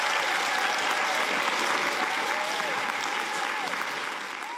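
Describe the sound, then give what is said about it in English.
Warm audience applause welcoming the author Richard Flanagan at Byron Bay: dense, steady clapping that holds strong throughout and eases slightly at the end. “let's begin with the very warm welcome Richard Flanagan received at Byron Bay.”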